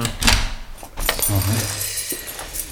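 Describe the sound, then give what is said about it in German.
Keys jangle and clink as an office door is locked, bright metallic rattles and chinks coming in short uneven bursts, with a muffled thump among them. “Ich muss erst mal mein Büro abschließen.”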